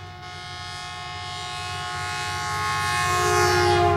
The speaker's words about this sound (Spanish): Tomaron el tren y se fueron rapidísimo.